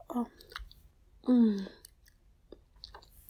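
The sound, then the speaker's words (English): Wet mouth sounds of someone licking their fingers: a few soft, moist clicks and smacks, mixed with two brief voiced murmurs and quiet breathing. “It's really hot seeing you lick your fingers like that.”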